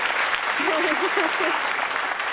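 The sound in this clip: Crowd applause sound effect played as a guest is welcomed, a dense, steady wash of clapping noise throughout, with a voice whooping over it near the middle.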